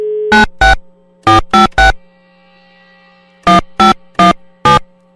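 Electronic ringtone of an unanswered phone call: short, bright tone bursts in quick clusters, a brief pause, then another run of bursts. No voices are heard.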